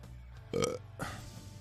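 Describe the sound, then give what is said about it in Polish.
A single short, throaty burp rises clearly over a faint low background hum, a brief guttural croak with no talking. “Beknąłeś”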